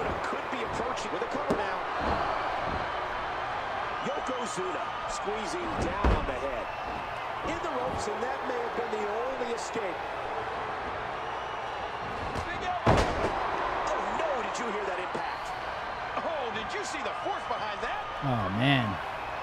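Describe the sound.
Heavy elbow strike impacts in a fight, two sharp, loud thuds standing out over continuous commentary voices and a constant crowd murmur.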